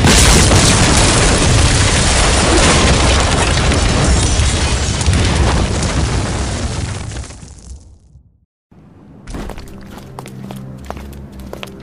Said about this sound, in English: Detonate.